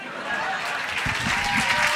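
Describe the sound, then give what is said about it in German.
Audience applause for a stage performer at the end of his act, heard as steady, dense clapping that keeps going for the whole two seconds. “Dein Applaus.”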